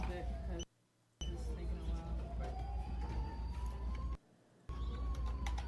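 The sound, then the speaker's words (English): An emergency vehicle siren wails faintly behind low background noise, its tone climbing slowly, and the sound cuts out twice for a moment. “Always got to love the sirens in the background.”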